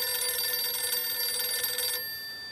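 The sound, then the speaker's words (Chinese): An electronic telephone ringing tone for an incoming call, faint, steady and high-pitched, cutting off near the end and leaving a quiet hiss. “孙连仲赶紧给池峰城打了电话”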